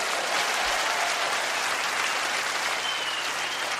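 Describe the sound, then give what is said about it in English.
Steady audience applause, a dense wash of many hands clapping at an even, loud level throughout, with no pauses and no clear voices rising above it. “Don't applaud.”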